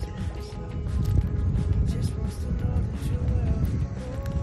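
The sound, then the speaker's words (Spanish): A boat passes close by on the sea off Menorca. A continuous, deep motor rumble drones steadily throughout, and a voice talks over it. “Bueno, ya no hay tranquilidad porque lo acaba de romper un barco que aparece por aquí al lado.”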